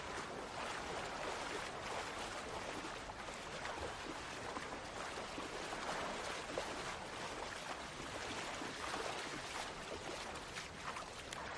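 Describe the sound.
Sea waves at the shore make a faint, steady wash, a continuous soft hiss of water with no distinct breaking surges.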